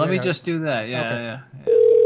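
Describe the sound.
A telephone tone sounds as a call is placed back, a steady electronic beep that starts right after a stretch of conversation and holds to the end.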